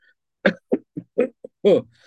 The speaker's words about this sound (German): ich muss so stark husten